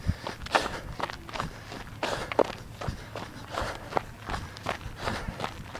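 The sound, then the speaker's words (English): Footsteps of runners during a run, a steady, regular rhythm of many soft footfalls, with a few sharper scuffs among them. “I'm even running through a walk break because it feels so regular. Can you hear the other runners”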